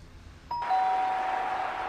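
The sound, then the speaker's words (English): A doorbell chime strikes once and then rings on as a clear, sustained tone that holds steady and fairly loud to the end, with no voices. “As long as the bell doesn't ring. Please, God, do not let that bell ring.”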